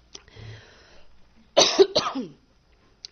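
Throat clearing and a few harsh coughs from a person with something caught in their throat, loud, raspy bursts that break up the quiet.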